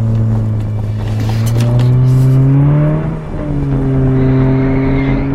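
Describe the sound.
A car engine revs hard as the car is driven fast through bends during a chase: the loud droning note climbs steadily, dips briefly, then settles back into a sustained high hum.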